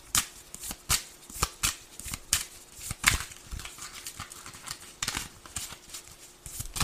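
Tarot cards being shuffled and drawn, with many crisp riffling and slapping bursts in an uneven rhythm and no voices.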